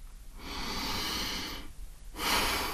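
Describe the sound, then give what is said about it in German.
Deep breathing before getting down to planning a meal: long, airy breaths, one drawn out for over a second and another starting after a brief pause, soft and breathy with no talk. “Also atme ich 3-mal tief durch.”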